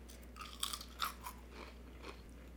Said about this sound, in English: I'm having chips. I feel like I should do ASMR.